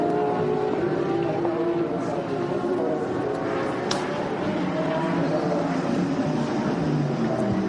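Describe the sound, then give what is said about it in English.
Audi and Porsche race cars come into the pits with a loud, continuous engine roar that holds a dense, steady drone throughout without clear breaks. “Into the pits comes the Audi. Into the pits comes the Porsche.”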